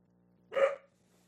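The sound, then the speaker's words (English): A neighbours' dog barking outside, a single short bark that is fairly faint, over a low steady hum. “woof woof. The neighbors are letting their dog out.”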